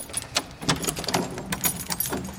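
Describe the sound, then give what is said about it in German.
A bunch of prison keys jangles and clinks continuously, with repeated bright metallic jingles of varying loudness and no talk. “Das ist der falsche Schlüsselbund. Moment. Ist ja nicht so, dass ich hier nur einen Schlüsselbund habe. Hier kommt der Gefängnis. Schlüsselbund. Hier ist es.”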